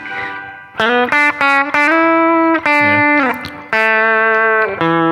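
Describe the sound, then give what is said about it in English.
A Fender Acoustasonic guitar plays through its Fender Electric Clean voicing. Several bright, sustained chords and notes are struck one after another with clear attacks and rich, ringing harmonics, and no one talks. “So this is the Fender electric. electric Clean, and we'll go to the Fender Electric Fat Semi Clean after this.”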